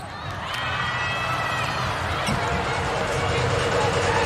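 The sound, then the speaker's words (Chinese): A volleyball serve struck during a match: a single crisp ball hit cuts through a steady, loud crowd roar. “王先来发球”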